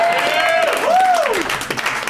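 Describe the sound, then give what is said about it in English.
An audience at a live comedy recording claps and cheers at the mention of a favourite film. Steady applause fills the moment while a whooping voice swoops up and down above the clapping. “And also realizing saying Con Air into a microphone got more applause than any joke I've ever written.”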